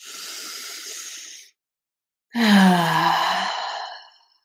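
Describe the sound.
A deep breath is taken in and let out during a guided breathing exercise. A soft, airy inhale is followed by a pause, then a longer, louder, slightly voiced exhaling sigh that fades away.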